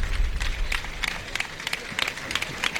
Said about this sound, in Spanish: Y aplauden a Diego Urdiales.